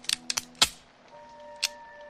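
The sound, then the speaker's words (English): Dry-fire clicks of an unloaded handgun: a few faint, sharp mechanical clicks spaced unevenly, one standing out in the middle, over a quiet steady hum. “she pulls out a gun. I have this gun. And she dry fires it.”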